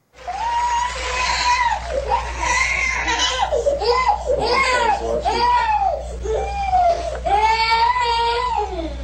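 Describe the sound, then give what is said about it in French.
A child crying during a tantrum, a long run of loud, strained wails broken by short gasps, each cry swelling and falling in pitch, repeated many times. “Nous allons regarder pendant un instant, à la fin de ce message, un enfant qui fait une crise et qui ne veut pas seulement faire une crise, on l'a commencé tout de suite, mais qui veut être vu alors qu'il fait sa crise.”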